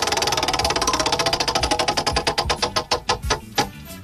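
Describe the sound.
A prize wheel spun fast rattles out rapid, loud ticks against its pointer. The clicks start quick and dense, then space out steadily as the wheel slows toward a stop.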